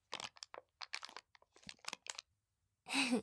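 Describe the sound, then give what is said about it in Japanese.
Quiet, irregular crunching and chewing as someone eats sweets, with scattered small crackles and bites, then a brief louder vocal sound at the end. “今食べてくれるんだ。さすがご主人様、甘いものは別腹みたいだね。”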